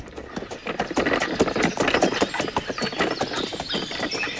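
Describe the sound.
A mule's hooves clip-clop along a road, many quick, uneven knocking strikes that keep up a brisk, moderately loud rhythm throughout, with no talk.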